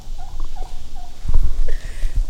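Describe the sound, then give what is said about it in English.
A wild turkey gobbles in a few rapid, warbling bursts over a steady background hiss, with no voices present. “and the wild turkey. Gobble, gobble, gobble, gobble. There you go.”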